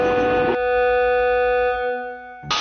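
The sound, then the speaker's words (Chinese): Fast-spinning machine winding fine thread noodles onto bamboo rods gives a steady hum of stable, sustained tones. Short bursts of broad noise come at the start and end. “飞速旋转的机器上缠绕的不是棉纱，而是面条。这个步骤是盘面，也叫上架。”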